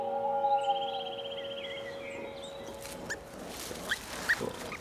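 Faint high squeaks and drawn-out squeals come from newborn wild boar piglets in their warm nest, a sheltered woodland hollow roofed with twigs and branches on a cold spring evening. A few short chirps follow later.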